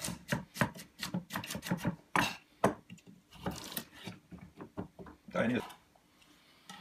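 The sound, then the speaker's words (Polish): Knife dicing a quartered carrot into small cubes: a fast run of many sharp, crisp chops in the first two seconds, then a few scattered cuts with a voice talking over them. “Przekrajamy ją tutaj na 1/4, tak. I kroimy ją w kosteczkę.”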